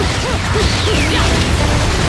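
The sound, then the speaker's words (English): Video game torture attack in which an angel is thrown into an iron-maiden-like device: mechanical clanks and a metallic crash amid whooshing, sweeping tones, with no talk. “We got a torture attack. This one throws the angel into like an Iron Maiden type thing.”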